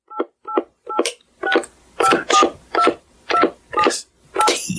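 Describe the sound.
Telephone keypad tones beep as a number is dialed to leave a voicemail: ten short beeps in a fairly steady rhythm, the first three softer and clipped, the rest louder.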